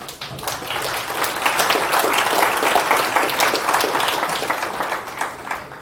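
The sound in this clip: Audience applause welcomes a speaker to the stage at a talk: a dense, steady wash of many hands clapping that holds at full strength for about six seconds and thins slightly at the end.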